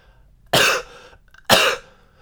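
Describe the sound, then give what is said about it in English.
A voice imitates a woman coughing loudly in a quiet cinema. Two sharp, harsh, loud coughs are separated by a short pause, with near silence around them. “and she starts coughing really loud.”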